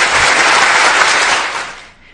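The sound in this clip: Applause breaks out as dense, loud clapping for a couple of seconds, then quickly tapers off at the end.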